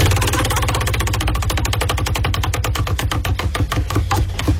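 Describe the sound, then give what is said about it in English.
A prize wheel spinning, giving a long run of rapid, evenly spaced clicking ticks that stay loud and steady throughout, with no talk. “So are we ready? Give it a spin today and see whose B-side we're picking.”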